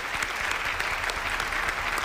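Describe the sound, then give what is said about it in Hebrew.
Applause from an audience at a rabbi's lecture on Sabbath law: dense, steady clapping at a moderate level throughout, with no voices heard. “מחיאות כפיים לרב אסף מחלב.”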